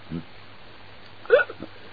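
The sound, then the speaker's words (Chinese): A voice imitates the burping of someone who has overeaten: a faint low grunt, then a brief, louder belch-like sound followed by a couple of small trailing bursts. “过了好长一段时间，这位撑的直打饱嗝。”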